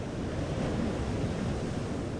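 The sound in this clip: Ocean surf at Sunset Point beach: a steady, broad rushing roar of waves mixed with wind buffeting, with no talk.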